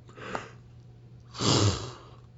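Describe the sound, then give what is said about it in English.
A person yawns: a short intake of breath, a pause, then a long, breathy, drawn-out exhale, fairly soft and with no speech. “I would sit here and not do anything for like 3, 4, 5, 6 hours, not yawn once. I get on the show, I start yawning.”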